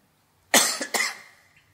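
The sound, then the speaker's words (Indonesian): A few harsh, abrupt coughs from an ageing person, with bursts close together in under half a second, loud against near silence and trailing off quickly. “Nih, sudah mulai tua. Penyakitnya batuk.”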